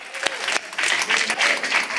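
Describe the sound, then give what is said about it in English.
Congregation clapping and applauding at a Father's Day church service, a busy patter of hand claps with voices mingled in, rising fuller after a brief dip early on. “Okay, let's clap it up for that too.”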